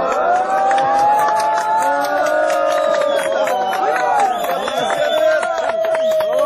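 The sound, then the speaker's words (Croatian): A crowd of refugees cheers and shouts ironically at soldiers reinforcing a border fence with barbed wire. Many overlapping raised voices form a loud, continuous din that does not let up. “Aplauzom i ironičnim povicima bravo, grupa izbeglica je pozdravila mađarske vojnike”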